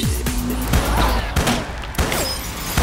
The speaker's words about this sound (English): Shoot at him! Those were warning shots, honey!